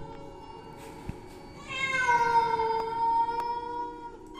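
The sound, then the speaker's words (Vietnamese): A wild forest cat's eerie yowl from across a stream: one long, wavering, tonal cry that swells in partway through and trails off over a quiet background, after an isolated sharp tick. “Sau đó họ nghe rõ là tiếng mèo. Kỳ lạ là không phải loài mèo nhà, mà là tiếng mèo hoang, những con mèo rừng đang kêu lên ghê rợn ở bên kia dòng suối.”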